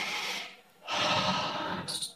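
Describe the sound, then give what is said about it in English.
A deep breath, a long airy inhale followed by a brief pause and a longer, fuller exhale, soft and alone with no talk. “before they walk in the door of the temple, all the Sakhis and Radharani take a deep breath.”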